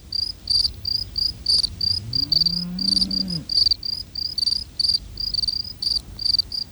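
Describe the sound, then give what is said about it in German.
Field crickets chirp in loud, rapid pulsed trains, several insects overlapping, one sitting in shade and singing slower than the others in warm midday sunlight; a brief low droning hum swells and fades beneath them partway through. “Die eine Feldgrille singt langsamer als die beiden anderen. Ihr Singplatz liegt im Schatten, während die anderen Grillen im warmen Mittagssonnenlicht sitzen.”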